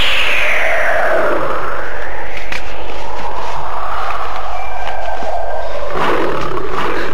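A tiger roars loudly in one long, rough, growling roar that fills the whole clip and swells again near the end, with no talk over it.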